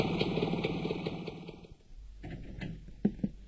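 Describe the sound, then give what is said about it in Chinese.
Motorcycle engine arriving downstairs: a steady engine drone with a sustained high whine cuts off partway through, followed by a quieter low rumble and a few brief knocks. “正在他犹豫不决的时候，楼下响起了摩托车的声音。”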